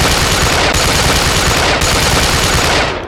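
Gunfire sound effect from a palanquin in a tabletop game: a dense, loud, rapid machine-gun rattle that runs nonstop for about three seconds, with two tiny breaks, before tailing off at the end.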